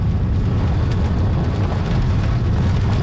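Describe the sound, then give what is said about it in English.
Low, steady rumble of a car driving down a gravel forest service road into a valley, engine and tyre noise blending into a continuous dense roar with no breaks or voices. “So we're coming down the Forest Service Road now into the valley, into Penticton, and we're driving directly towards Summerland now.”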